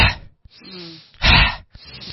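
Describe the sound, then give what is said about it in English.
Fire breath, a forceful breathing exercise: a steady drawn-in breath leads into a loud, hard-pushed exhale, with softer breaths on either side. “it's really quite a forced out breath. So it's a breath in, and then...”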